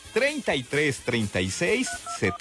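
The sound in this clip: Telephone keypad dialing tones for a call-in line sound as a few short, steady electronic beeps near the end, following a loud voice.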